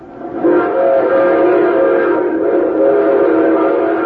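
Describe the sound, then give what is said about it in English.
A train whistle sounds as one loud, sustained blast, a steady pitched tone that holds for about four seconds, alone with no talk. “No, no, no, no, that's a train.”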